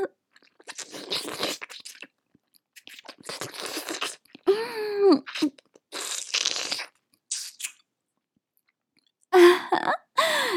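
Wet licking and sucking on a piece of candy, heard as intermittent moist smacks and slurps. Short pauses fall between them, along with a few brief murmured vocal sounds.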